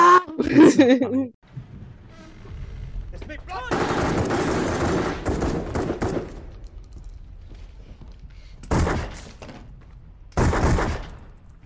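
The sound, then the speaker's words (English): Automatic gunfire from the action film Triple Frontier: a voice comes first, then a long, loud stretch of rapid shots, followed by two shorter, sharp bursts. “What are we shooting at in here?”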